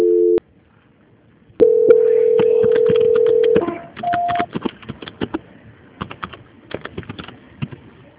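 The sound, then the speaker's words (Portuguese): Telephone voicemail beep tones: a brief tone, then a long steady beep of about two seconds, then a short higher beep. Scattered light clicks follow. “Please leave your message after the tone. When done, hang up.”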